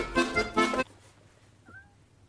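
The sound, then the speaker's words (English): A cat meows twice in quick, loud succession, then falls quiet before one faint, brief mew near the end. “That's a cat.”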